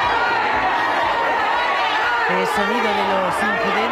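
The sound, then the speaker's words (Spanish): Crowd commotion at Bilbao airport as a relative breaches the security cordon: dense, continuous chatter and raised, shouting voices, with a few higher yells cutting through the din. “Es sonido de los incidentes que se han producido cuando uno de los familiares se ha saltado el cordón de seguridad.”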